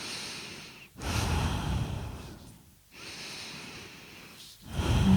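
Deep, fast, forceful breathing from a breathing exercise: a run of about four loud, airy rushes, each separated by a short gap, with a rough, snorting edge.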